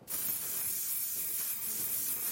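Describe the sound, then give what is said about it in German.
Hairspray hisses onto nylon underwear in one steady, loud aerosol spray that runs almost unbroken for over two seconds, with no voices. “Ich habe doch hier irgendwo Haarspray mitgenommen. Dann würde ich sagen, wir probieren das aus. Wir sprühen deine Unterhose fett ein.”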